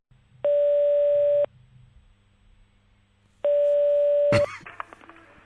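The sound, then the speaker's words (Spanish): Telephone dial tone before a phone call: two steady, buzzing one-second tones separated by a silent gap, the second ending in a sharp click followed by a few faint rattles and taps. “Vamos entonces a la llamada de los zapatos para Gary, que eran con plataforma.”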